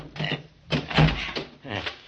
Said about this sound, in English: Can you get that door open? Oh, it's pretty well banged up. I think I can handle it.